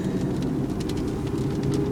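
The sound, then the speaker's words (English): Rain falling during a thunderstorm and getting heavier: a steady, dense hiss of drops over a constant low rumble, with no gaps. “I get closer to home, and it's starting to rain harder”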